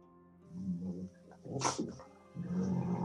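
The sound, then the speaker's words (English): A dog growls and snuffles while wrestling, low rumbling bursts coming in uneven waves, with a brief sharp huff midway through. “What's your dog doing? Wrestling.”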